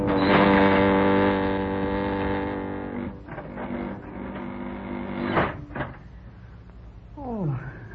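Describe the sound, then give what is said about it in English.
Radio drama effect of an elevator car coming down a shaft: a loud, droning mechanical hum with steady tonal layers that weakens and breaks up, with a few heavier thumps toward the end. “Hey, the elevator's coming down on us. We can't make it. We've got to make it.”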